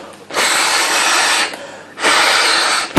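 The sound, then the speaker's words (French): Air is blown hard into a bag-in-box wine pouch through its unlocked tap to inflate it, in two long, loud, steady breathy rushes separated by a short gap. “appuyez sur le système de déverrouillage et soufflez dans la poche.”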